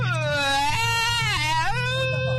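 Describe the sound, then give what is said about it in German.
A person imitates a crying baby with a loud, sustained wailing voice whose pitch wavers, rising and falling through the cry. “Aber mal so richtiges Babygeheule kriegen wir jetzt auch noch hin.”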